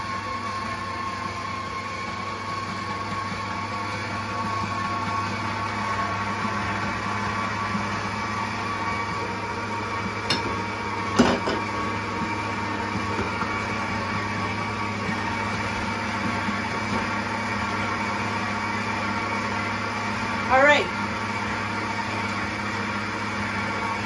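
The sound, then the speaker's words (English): Electric mixer beating a yeast dough mixture: a constant low motor drone with a faint whine that holds steady throughout, broken only by two brief soft knocks. “I'm going to stop the mixer and I'm going to do it by hand now.”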